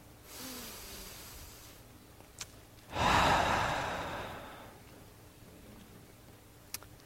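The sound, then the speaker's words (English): A deep human breath: a long, soft inhale, then a louder rushing exhale that swells and fades slowly, with a couple of faint ticks and no speech. “Just take a deep breath.”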